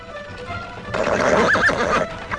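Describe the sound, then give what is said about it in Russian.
A small peasant horse pulling a cart on a dusty road whinnies clearly partway through, over a soft background of hoofbeats. “Мы сидим в телеге. Рыжеватая крестьянская лошаденка бойко бежит по пыльной дороге.”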